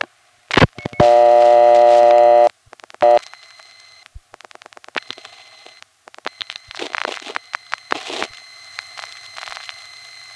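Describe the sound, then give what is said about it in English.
Revertive pulsing on a telephone call routed from a panel exchange through a crossbar tandem: a loud buzzing tone near the start, then many trains of rapid sharp clicks in uneven bursts over a low steady hum. “that, as I'll explain elsewhere, is an indication that this call is going through what I call a revertive tandem. It's a crossbar tandem being communicated with using revertive pulsing”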